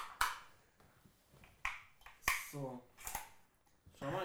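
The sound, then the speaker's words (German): A power switch is pressed, giving a few crisp, sharp clicks spaced between bits of speech. “Anschalter. Drücken wir auf den Anschalter.”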